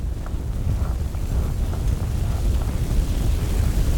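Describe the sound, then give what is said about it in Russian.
Roaring of a petrol fire flaring up after being lit with a lighter, a steady, loud low rumble with faint crackling flecks running throughout. “Потом поджигает бензин зажигалкой и уходит по коридору. Огонь разгорается.”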